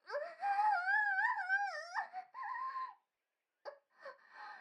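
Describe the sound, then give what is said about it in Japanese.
A wailing, crying voice resounding in a changing room: a long, wavering high moan that swoops up and down, a shorter cry after it, then a pause and a few brief sobbing bursts. “更衣室の中に、泣き叫ぶような声が響き渡る”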